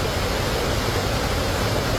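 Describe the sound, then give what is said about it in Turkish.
Rushing water of a waterfall in the Çatak district of Van, Turkey: a loud, dense, unbroken roar and hiss that stays steady throughout, with no voices. “Burası Van'ın Çatak ilçesinde bulunan Kanispi Şelalesi.”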